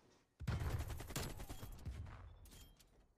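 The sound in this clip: Dense, loud gunfire from a video game: many rapid shots in a continuous barrage that starts abruptly and keeps going to the end.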